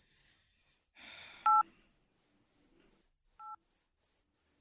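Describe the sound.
Two brief electronic keypad tones from a mobile phone being dialed in the dark, sounding a couple of seconds apart over steady, high cricket chirping. A short rustle comes just before the first tone.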